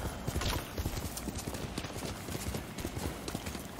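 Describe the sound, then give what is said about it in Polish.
Hooves clip-clop as a horse is ridden in a video game, a quick, steady rhythm of many hoof beats over a dense, continuous background. “Gdzie jest konik? Tu jest konik. Nie poddawaj się, koniku. Nie poddawaj się. No to jedziemy.”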